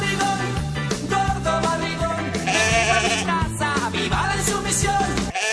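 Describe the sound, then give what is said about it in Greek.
Sheep bleating, with wavering, vibrato-like cries set over a loud, continuous, rhythmic backing sound that lasts throughout. “Πρόβατα ανταποκρίνονται.”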